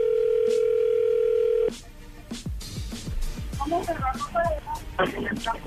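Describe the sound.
A steady telephone dial tone hums while a call is being redialed. The continuous flat tone holds for under two seconds, then cuts off abruptly, and people's talking follows.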